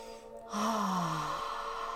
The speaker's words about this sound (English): Take a nice deep inhale in, exhale out.